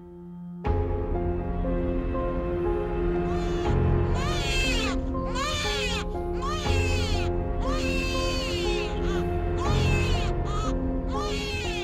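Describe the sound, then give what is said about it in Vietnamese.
A newborn baby wails right after birth in a dark room. It gives a few arching, high-pitched cry bursts that rise and fall over a steady, sustained tonal background. “Tiếng khóc oe oe cất lên trong căn buồng tăm tối.”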